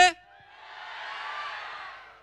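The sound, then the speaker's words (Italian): An audience at an Italian live music show shouts on cue after a count of three. A brief voice opens, then a broad, fairly faint crowd roar swells, holds and slowly fades. “io vi chiederei un urlo al mio 3.”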